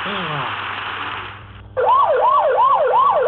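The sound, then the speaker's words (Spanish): Alarm siren at an industrial plant whose machines are overloaded: a loud siren wails up and down repeatedly in a steady cycle, after a falling whine briefly fades out. “¡La sirena de alarma!”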